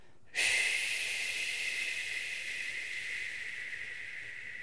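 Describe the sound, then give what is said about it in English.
A forceful breath pushed out through the mouth makes a loud, airy hiss. It starts abruptly and holds steady for over four seconds, fading only slightly toward the end, with no talking. “breathing out, breathe out through your mouth, making like a,”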